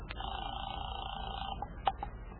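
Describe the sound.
Faint telephone dialling for a call: a long steady tone, then a few short electronic beeps from the keypad.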